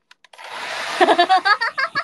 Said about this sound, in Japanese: なんで私ドライヤーつけてんの？うるせえ。熱いし、しかも。